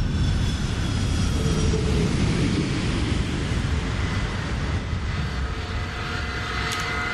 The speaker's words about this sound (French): voici votre nouvel avion.